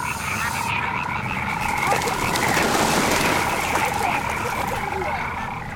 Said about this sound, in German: Moment mal, die Frösche gehen jetzt.